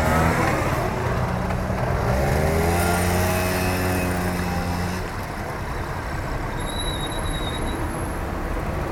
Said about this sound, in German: Das Objekt fährt vom Gemüsehändler los. Sein Moped fährt ja zum Glück nicht so schnell.